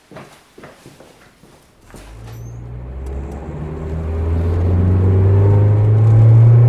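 A car drives on a country road. A few sharp clicks come first, then a low engine rumble builds steadily and grows louder and fuller to the end.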